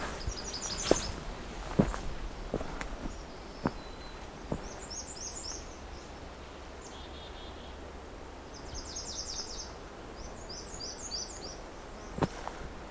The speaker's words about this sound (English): Okay, a lot of different American redstarts here.